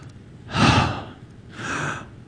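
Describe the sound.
A voice imitates a desperate gasp for breath, as of someone hanging on a cross and pushing up with the legs to breathe: two loud, breathy gasps with no words, the first stronger than the second.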